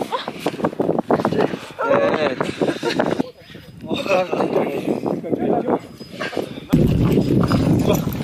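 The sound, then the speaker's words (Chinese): Horses' hooves clip-clop as the animals walk through muddy, high-altitude cold wetland near the southern source of the Yangtze, with a steady run of hoofbeats beneath ongoing talk. “此处泥泞不堪，队员需要骑马前往。”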